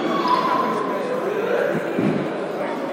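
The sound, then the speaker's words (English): A basketball is dribbled on the court during a high school game, a few low thuds beneath steady crowd noise and voices. “Takes his time, sets the dribble, shoots the ball up”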